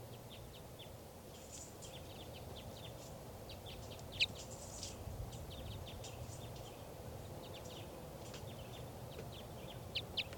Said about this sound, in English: Start recording bird 4:11. 4:11.